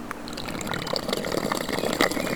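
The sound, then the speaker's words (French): Water wells up between two rocks at a spring resurgence, making a steady, even gurgle and bubbling rush that continues throughout with no clear pauses. No voices are present. “Résurgence d'eau”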